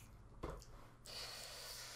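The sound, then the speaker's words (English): Quiet slurping of a fudge brownie milkshake: one brief noisy burst, then a steady airy sucking draw through the second half. “Excuse me while I drink some fudge brownie milkshake.”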